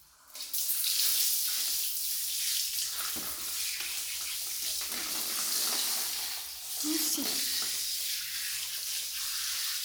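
Water poured to rinse someone's back in a bath: a steady, hissing splash that runs for nearly ten seconds, easing briefly for a moment before swelling again.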